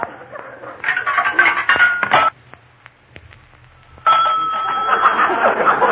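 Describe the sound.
A nickel drops into a payphone in a private house and a number is dialed. A burst of clattering, rattling noise gives way to a quiet stretch of sparse clicks, then a steady telephone tone takes over to the end.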